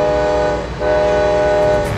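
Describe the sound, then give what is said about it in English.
A train horn blows in Galesburg as a loud, sustained multi-tone chord over rumbling rail noise, briefly dipping midway before the blast carries on. “Do trains run through Galesburg every day?”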